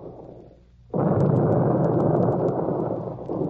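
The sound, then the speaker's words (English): The battleship New Jersey's guns fire on the enemy shore at Wonsan during the Korean War. A sudden heavy blast cuts through a lower rumble and swells into a long, loud, roaring boom, with faint crackles scattered over it. “the battleship New Jersey lay at anchor, and like a floating gun platform, struck the enemy hard at Wonsan.”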